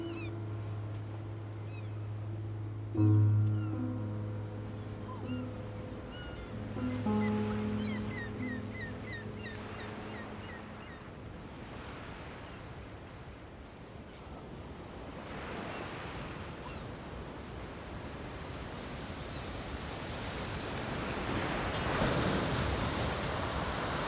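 Sea waves washing onto the shore, a broad, hissing surf that swells louder toward the end, with sustained tones heard only over the first part.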